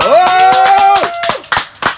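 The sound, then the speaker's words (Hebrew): Hands clap in a quick, even rhythm over a sustained tonal note. A few louder, sharper claps stand out near the end. “שפו כפיים לחמי.”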